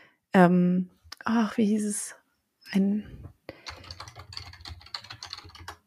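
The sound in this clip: Typing a web search on a computer keyboard produces a rapid, uneven run of light key clicks. A voice speaks briefly before the typing begins.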